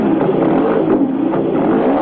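Motorcycle engine droning as the bike rides off through a gravel parking lot: a steady, loud, mid-pitched growl that holds throughout.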